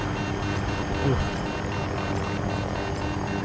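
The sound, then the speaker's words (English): A damaged helicopter hovers in a video game, giving a continuous, steady rotor and engine drone while people talk over it. “Oh, the chopper's not in good shape, bro. As expected. All right, get back in. We'll just hover.”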